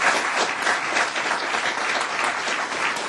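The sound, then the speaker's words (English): An audience gives the presenters at an event a hand: a full, steady round of many people clapping, evenly loud throughout a few seconds. “I'd like the audience please to give our presenters a hand.”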